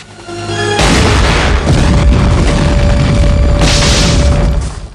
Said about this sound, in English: fires a grenade at the forklift and blows it up.